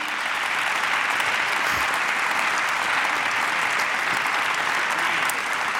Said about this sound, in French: und es geht weiter mit dem Applaudieren.